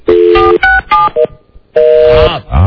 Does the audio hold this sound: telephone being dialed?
yes

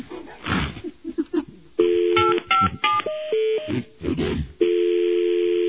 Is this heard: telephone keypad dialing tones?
yes

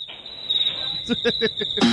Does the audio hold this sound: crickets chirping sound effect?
yes

